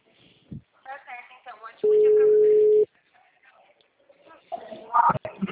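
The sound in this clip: A telephone tone sounds after a dropped call: a single steady, mid-pitched beep lasting about a second, with people talking before and after it.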